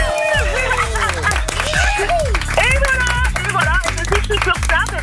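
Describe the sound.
Applause and cheering for a morning contest winner, with claps mixed under loud, overlapping excited voices that whoop and call out with rising and falling pitch.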